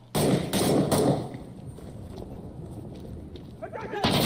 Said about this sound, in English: The sound effects, though. The audio design is amazing. Yeah. Yeah. These guys made sure that they know which weapons they're firing, they know how they sound, and they want them to sound right.